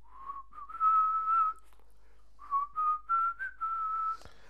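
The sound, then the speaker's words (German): A person whistles to imitate crowd whistling at a football stadium in Hannover when a substitution is announced. Two clear phrases of sustained mid-high notes with small pitch slides are separated by a short pause. “wenn im Stadion in Hannover, wenn Wechsel über die Anzeige angekündigt wird, dass kurz das Gepfeife”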